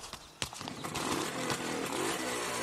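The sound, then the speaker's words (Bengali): A motorcycle engine starts with a loud, rough roar. A sharp pop comes early, then a rattling, buzzing drone holds steady at high volume. “Captain Krishnan তাতে চড়ে বিকট আওয়াজ তুলে start দিয়ে আমাদের পাশাপাশিই চললেন”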